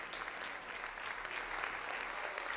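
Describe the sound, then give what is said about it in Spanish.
Deputies in a parliament chamber applaud after a regional president's investiture. The clapping is dense and continuous, fairly faint and level throughout, with no clear breaks. “El aplauso ahora mismo de los diputados del PP y de Vox.”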